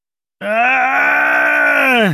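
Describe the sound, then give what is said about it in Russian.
An almost inhuman, heart-rending scream in a hospital corridor: one loud, unbroken, groaning cry that starts abruptly, holds a steady low pitch for nearly two seconds, then sags and cuts off. “Наш разговор прервал душераздирающий, почти нечеловеческий крик, который разорвал сонную тишину больничного коридора.”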